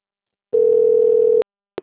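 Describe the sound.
A telephone line tone while placing a call: one steady, sustained beep lasting about a second, followed by a brief click.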